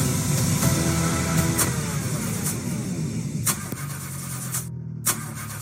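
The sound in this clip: A car engine cranks without starting, apparently because of an engine fault: a steady, rough mechanical churn runs throughout, broken by a few brief, sharp bursts.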